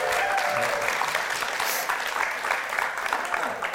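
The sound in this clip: Audience applause welcoming screenwriters onto the UCSB Pollock Theater stage: a continuous, brisk wash of clapping that holds steady throughout with no speech over it.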